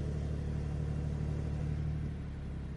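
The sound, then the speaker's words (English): A car engine with a sport exhaust idles just after starting, giving a low, even, quiet rumble that holds steady without revving. “starts the engine, and then you get that great sport exhaust as well”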